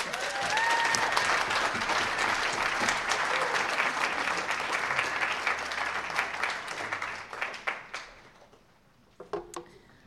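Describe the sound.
Audience applause welcoming a poet to a poetry reading: dense, steady clapping that holds loud for about eight seconds, then thins out and fades, with a few scattered late claps at the end.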